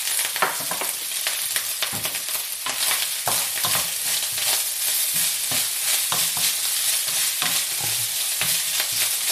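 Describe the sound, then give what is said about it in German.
Scrambled egg frying and being stirred in a pan: a steady, bright sizzle runs throughout, broken by many quick scraping strokes, with no talking. “Dann mache ich wie so ein Rührei, ein angebratenes, und das haue ich dann einfach hier mit rein.”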